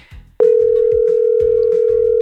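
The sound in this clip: Steady telephone tone during a call to a grandmother, a single unbroken mid-pitched note that starts abruptly after a brief stretch of faint background sound and holds at constant loudness to the end.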